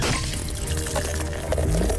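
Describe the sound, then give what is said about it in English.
Legend Extra Stout beer pouring in a steady, continuous liquid rush with a gentle gurgling texture, moderately loud and without talk. “That's the sound of a stout that flows with your personality.”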